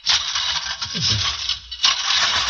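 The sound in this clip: A lawn mower cutting grass with its grass catcher dragging gives a continuous hissy, scraping whirr with a gritty rasp and two brief dips in level.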